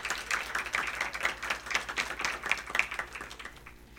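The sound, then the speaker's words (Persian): An audience claps hands at a religious celebration of the birth of Fatima Zahra. Many quick, overlapping claps form a fairly faint, lively rhythm that thins out slightly toward the end. “دست بزن آقا، دست بزن، دست بزن، بزن.”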